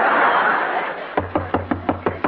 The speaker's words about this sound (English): Who's that a-knocking at our door?